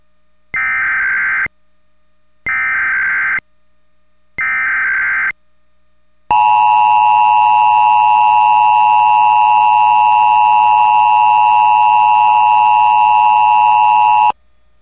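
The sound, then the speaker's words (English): Emergency alert system tones from a statewide required monthly test: three short, evenly spaced buzzing data bursts, then a loud, steady high two-tone alert held for about eight seconds before cutting off. “This is a statewide required monthly test of the emergency alert system originating from the Pennsylvania Emergency Management Agency, Harrisburg.”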